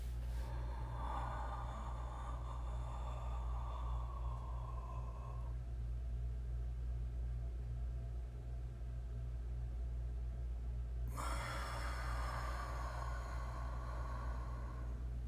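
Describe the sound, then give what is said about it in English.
Controlled breathing: a slow, airy in-breath lasting about five seconds, then a quieter held pause, then a breathy out-breath of similar length. The breaths are faint over a steady low hum. “which is a controlled breathing. It is an in-breath that lasts 5 seconds, holding our breath for 5 seconds, and then an out-breath that lasts 5 seconds.”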